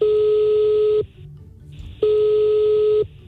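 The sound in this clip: Telephone line tones sound during a call: two steady, loud tone bursts of about one second each, separated by a one-second gap of near silence.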